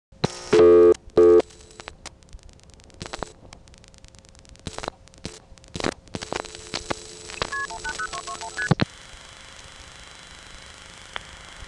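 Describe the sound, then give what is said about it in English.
Telephone dialing tones on a call to number 180221 that seemed to reach Mexico and ended on a silent line: two loud tone bursts, then scattered clicks and pulses, a quick run of short tones, then a quiet hiss. “On this next call, I dialed 180221, which went through, sounded like it got into Mexico, but it ended up on a silent line.”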